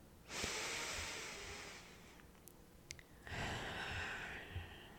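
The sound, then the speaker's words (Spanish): Slow, deep breathing during a guided pause: two long, airy breaths separated by a short quiet gap, soft and faint. “vamos a tomar un momento para respirar.”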